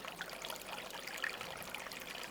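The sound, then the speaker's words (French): A thin trickle of water, more like a small spring than a stream, runs steadily at the bottom of a small forest valley near the Col de la Haute-Baume. It is soft and continuous, with faint bubbling plinks and no voices. “j'ai posé mes microphones au fond d'un petit vallon en forêt, où il reste juste un filet d'eau qui fait plus penser à une résurgence”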